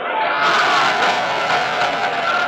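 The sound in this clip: A dense crowd gathered in the historic Plaza de Mayo makes a steady, loud roar of mingled voices that holds without a break.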